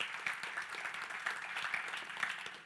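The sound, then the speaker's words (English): Audience applause in a church for the worship leader: dense, rapid clapping from many hands, fairly soft, running steadily with small surges throughout. “I'm noticing a pattern. Like, we clap for a lot of people but me.”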